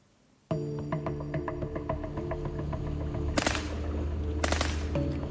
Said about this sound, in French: Donc nous, on entend des rafales. On a deux armes différentes qui sont en train de nous tirer dessus. On a probablement une AK-47 qui est en train de tirer en rafale.